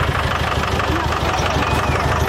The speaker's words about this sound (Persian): میون ازدهام ماشین ها و حرکت زیادی ساکنان گاه به خطر روبرو می شود. صداهای بلند بزن کودکان رو از خواب بیدار و کاری مادر رو مشکل تر می کند.